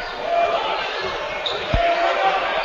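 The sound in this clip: A basketball bounces on the floor during a basketball game, one deep thud standing out against steady crowd noise.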